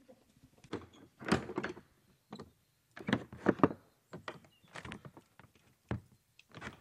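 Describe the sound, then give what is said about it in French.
Door bolts being unlocked at a house entrance: many short clunks, rattles and metallic knocks come in uneven bursts at moderate loudness, with brief pauses between them. “Alors, on a entendu les verrous, merci. Je les ai enregistrés, les verrous.”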